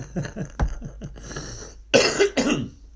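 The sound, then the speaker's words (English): Two deep, strong coughs, loud and close together, following softer throat noises. “That was a deep one. Good strong cough.”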